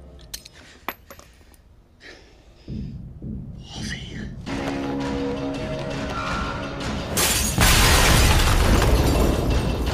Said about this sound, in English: Haha, grenade.